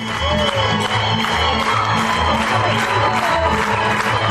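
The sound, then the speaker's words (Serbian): Stormy applause and cheering from an audience greet a folk dance performance by 22 dancers, with dense continuous clapping and scattered whoops over a steady low rhythmic pulse. “Na kraju, burni aplauzi, ovacije i na zahtev publike igra na bis.”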